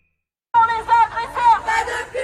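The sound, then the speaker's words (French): Feminist activists chant a protest slogan in unison at a play in Paris. After a brief silence, several loud, rhythmic shouted phrases follow one after another. “Pas de public pour les agresseurs, c'est ce que vous entendiez. Ça se passait hier à Paris, des militantes qui ont fait annuler finalement”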